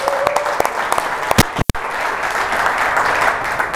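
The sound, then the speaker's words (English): A church audience in North Carolina breaks into loud, dense applause to welcome a guest speaker, the steady clapping running through the whole clip. “So, guys, put our hands together and welcome Mike.”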